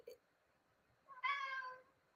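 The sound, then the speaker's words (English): A cat meows once, eager to get out through a window: a single clear, harmonic-rich call of about half a second, preceded by a brief faint tap in an otherwise quiet setting. “My cat is very excited about getting out the window. Excuse me for the meowing in the background.”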